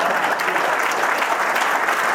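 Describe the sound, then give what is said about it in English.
A short burst of steady audience clapping fills a coach's press conference in Boulder, even and continuous from start to finish. “Now that was good. You're supposed to clap for that.”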